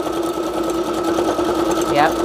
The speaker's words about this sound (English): Whoop, there's a funny string coming through. Probably should have cleared that. Didn't do it. Sewing anyway.